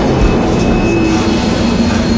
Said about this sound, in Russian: К платформе подходит поезд.